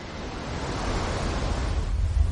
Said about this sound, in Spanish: Una gran ola avanza por el mar.